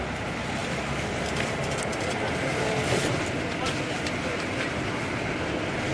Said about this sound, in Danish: Nu kører vi ned ad Åkantvej.